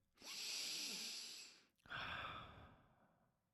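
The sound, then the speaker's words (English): A deep breath taken slowly: two long, airy breath sounds, the first lasting about a second and a half and the second slightly shorter and fading out, with no talking. “Or, kind of like I just did, take a deep breath”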